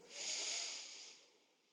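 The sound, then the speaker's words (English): One slow, deep breath drawn in: a soft, airy hiss that swells over a moment and then gradually fades, quiet and on its own. “And let's do one more full breath just like that. Inhale.”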